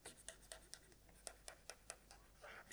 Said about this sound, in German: Ich hab's. Ich schreib ihm einen Zettel.